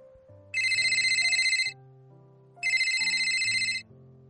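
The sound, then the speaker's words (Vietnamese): Electronic telephone ringing heard while placing a call, sounding in two bright, warbling bursts of about a second each, separated by a pause, over soft, low background music. “chạy nhanh đi gọi điện thoại cho Cố Nghiên Thu”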